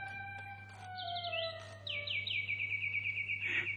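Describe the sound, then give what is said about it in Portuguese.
A wind-up mechanical toy bird sings quietly in a string of bright, high chirps and rapid warbling trills, over a faint, steady low hum. “Oh, é um pássaro de corda! Vejam que preciosidade!”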